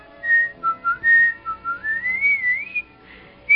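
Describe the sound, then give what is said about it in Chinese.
Cheerful whistling for a plump little field mouse pulling a small cart, a lively melodic run of wavering high notes, some short and bouncing, others gliding upward, heard alone. “一只胖胖的小田鼠吹着口哨，拉着一辆小车子从百灵鸟的面前走过”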